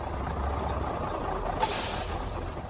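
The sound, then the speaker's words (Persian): Bus air brakes letting out a sudden, sharp hiss as a city bus pulls into a stop, following a low, rumbling engine drone. “داره به ایستگاه اتوبوس شماره 6 میرسه.”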